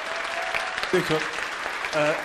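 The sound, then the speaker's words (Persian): An audience claps in someone's honour, a moderate patter of applause with voices calling out over it at a couple of moments. “دست بزنم به افتخارشون.”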